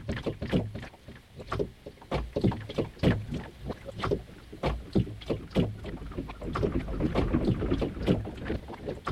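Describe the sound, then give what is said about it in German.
Water sloshes and laps around a boat in a steady run of irregular splashing bursts, with low wind rumble underneath. “Und manchmal und wie jetzt auch einfach nur das Wasser.”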